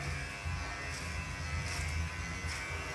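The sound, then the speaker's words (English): An electric shaver buzzes steadily while shaving armpits, a fairly faint, even, low hum with slight pulsing that runs unbroken for a few seconds, with no talk. “Shaving my armpits.”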